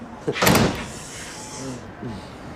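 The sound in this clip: A locked door being tried, giving one short, loud rattling clunk of the handle and frame, then only quiet room noise.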